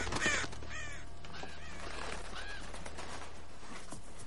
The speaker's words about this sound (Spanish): aparta unos cuervos de un cadáver